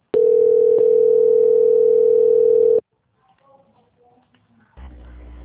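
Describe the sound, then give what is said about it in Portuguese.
Steady telephone tone heard while a call is being transferred: a loud, unbroken electronic hum lasting nearly three seconds, then a quiet stretch with faint noises and a low hiss at the end. “só um minuto, por favor, que eu vou transferir a sua ligação. Transferência.”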